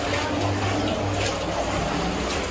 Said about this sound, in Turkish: Akşam saatlerinde etkili olan şiddetli yağışlar Karamürsel ilçesi ve çevresini vurdu. Özellikle giriş ve bodrum katlarını su bastı.